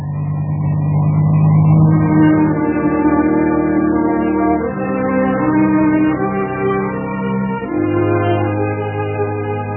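A car drives along with a steady, droning engine hum, its low tones shifting slightly in pitch now and then, with no talk over it.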